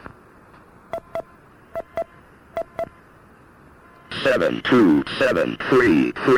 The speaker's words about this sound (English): Let me check the last number dialed through the patch.